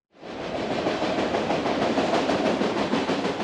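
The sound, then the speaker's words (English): Passenger train at Phoenix Union Station: a steady rumbling clatter of rail cars that swells in quickly and then continues loudly and evenly, with no voices. “That sound was familiar for Phoenix's Union Station when rail travel peaked around World War II.”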